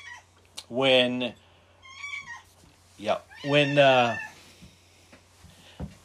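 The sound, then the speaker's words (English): A domestic cat meows several times, two longer, drawn-out calls and a few shorter ones, at moderate loudness with quiet gaps between them. “oh, my cat's coming to join the conversation.”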